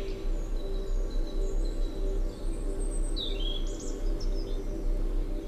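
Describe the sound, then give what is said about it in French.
Scattered bird chirps and tweets with insect sounds in a spring forest, above a steady low hum that runs through the whole recording. The calls are short, fairly faint and come a few at a time. “des gazouillis d'oiseaux, des insectes pollinisateurs”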